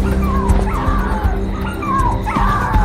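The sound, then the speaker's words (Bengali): Puppies yelping and howling in a courtyard: a loud, continuous, overlapping chorus of shrill whining yelps and wavering cries that keeps up without pause. “এবার শুধু বেড়াল নয়, কুকুরের বাচ্চা, সেগুলো মাটিতে পড়েই তারস্বরে চেঁচামেচি শুরু করে দিল।”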